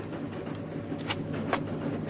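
Train running on rails as it approaches a bridge across a river, a steady low rumble with a couple of faint metallic clacks.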